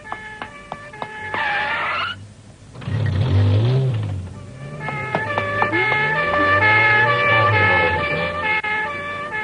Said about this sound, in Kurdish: ها دەنگی ئۆتۆمبیلی پۆلیسە.